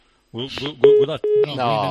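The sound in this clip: Telephone tones from an unanswered call: two short steady beeps at the same pitch, with people talking over and around them.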